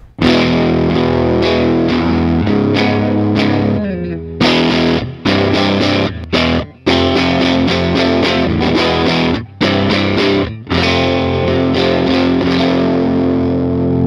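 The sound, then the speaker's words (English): Electric guitar played through an amp boosted by an MXR Micro Amp pedal, giving a loud, thick overdriven tone with sustained chords broken by a few brief cut-offs and gaps. “So that's just the amp. So that's the amp. I've got like this little MXR micro amp that I've always had there that just pushes it a little bit, you know, and then the 636.”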